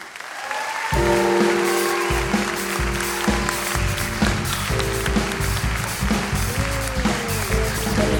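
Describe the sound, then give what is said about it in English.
Audience applause welcomes a performer at a live storytelling show: dense, loud clapping starts about a second in and holds steady to the end. “Would you please put your hands together?”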